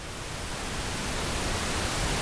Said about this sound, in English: And white noise gets louder as it gets higher. So it's brighter because it emphasizes the highs. Okay. Pink noise.